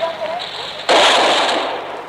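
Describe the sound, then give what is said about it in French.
Gunfire from a street barricade during the August 1944 fighting in Paris: after a quieter start, a sudden loud, dense crackling burst breaks out and keeps going, with a fresh surge right at the end. “La barricade vient d'ouvrir le feu.”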